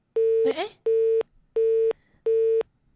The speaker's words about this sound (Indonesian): Terputus ya teleponnya.